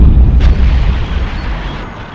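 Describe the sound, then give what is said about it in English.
A huge explosion as the world blows up, heard as a loud, deep, continuous rumbling boom that slowly fades, with no voices. “The world is exploding!”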